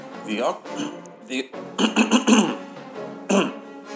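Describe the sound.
An exaggerated, awkward throat clear, heard as a quick series of rough, guttural bursts mixed with short voiced sounds.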